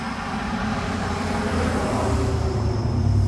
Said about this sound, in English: this guy's coming, driving way too fast around this turn.